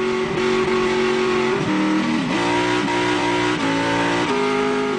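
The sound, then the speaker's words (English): A V8 supercar racing engine roars loudly and continuously, its harmonic drone stepping up and down through several gear changes. It is heard alone, with no voices. “So that's the old V8, you know, who first started racing at Hidden Valley all the way back in 1998.”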